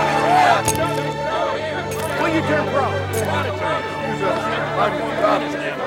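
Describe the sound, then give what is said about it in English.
An excited crowd at the Open golf championship rushing a golfer, a dense babble of many voices with a few sharp bursts rising out of the steady clamour. “At the Open, guards stand around Bobby as the crowd rushes him.”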